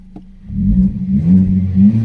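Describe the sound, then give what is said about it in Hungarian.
A car engine revving slightly as the revs climb only a little: a low, steady engine drone that swells after a brief quiet start and holds, with mild fluctuations in loudness. “Megemelkedik a fordulatszám”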